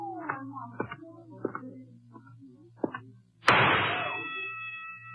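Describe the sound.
A single sharp gunshot from a gun at a carnival shooting gallery cracks out suddenly after some talk and leaves a brief ringing tail as it decays.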